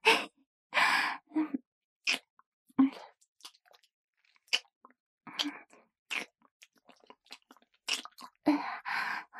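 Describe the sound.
Quiet, wet chewing and crunching of hot, hard food likened to chicken gizzard, irregular bites and chews separated by short silent pauses, with no talk.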